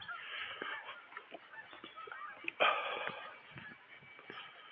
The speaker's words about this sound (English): A squadron of geese. Or is it a gangle of geese?